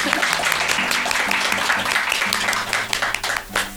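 Applause from a live audience at a public radio recording, celebrating a listener's new baby: dense, steady clapping that keeps up throughout and dips slightly near the end.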